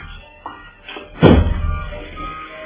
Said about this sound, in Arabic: افتح شوف مين يا حسان.